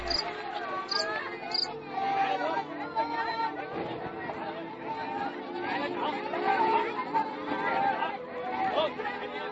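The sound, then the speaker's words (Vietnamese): Crickets chirp at night, hidden at the foot of a coconut tree. Dense, continuous high rasping chirps fill the whole stretch, mixed with other busy chattering sounds, at a fairly steady level. “Dế trốn dưới chân dừa gáy tiếng xè xè”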